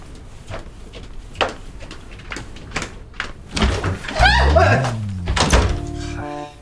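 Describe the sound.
A door opens in a family home: a few dull thunks and knocks, then a louder stretch of creaking and rattling, with voices briefly present.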